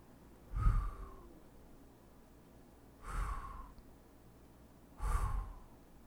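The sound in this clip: Three slow breaths in and out during a guided breathing exercise, spaced about two seconds apart. Each is a soft, airy whoosh that swells and fades, fairly quiet and with no talk.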